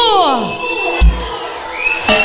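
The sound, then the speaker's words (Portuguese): A concert crowd shouts and cheers, with loud overlapping whoops and high voices sliding up and down in pitch, packed densely throughout. “Só quem tá feliz dá um gritinho aí, por favor.”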